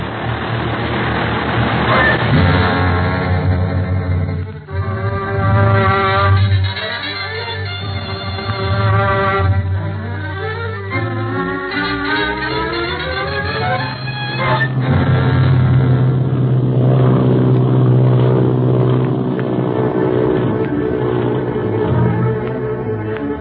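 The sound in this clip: Airplane engine revving up: a loud, continuous droning motor with a steady low hum and layered whining harmonics that climb in pitch midway, then settle into a heavier roar.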